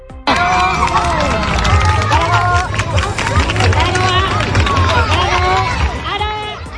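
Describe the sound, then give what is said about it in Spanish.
Crowd cheering at a solar eclipse in Castellón, at one of the open-air viewing areas set up by the city council. A loud, dense, unbroken roar of many voices and shouts fills the whole clip. “Este es el sonido en el grado de Castellón, en uno de los dos escenarios habilitados por el Ayuntamiento cuando se alcanzaban las 8:31”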